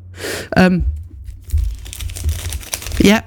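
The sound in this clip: Cellophane wrapping is peeled off a table in crinkly, crackling bursts of varying loudness, with a voice briefly heard at the start and end.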